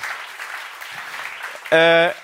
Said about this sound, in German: unsere Fotografen, auch mal für die Applaus bitte.